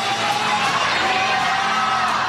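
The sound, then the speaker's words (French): Stadium crowd cheering and shouting as Pope Leo XIV rides around in the popemobile. A steady, loud wall of voices with scattered whoops continues throughout. “puis parcourt le stade en papa mobile sous les acclamations et les viva il papa.”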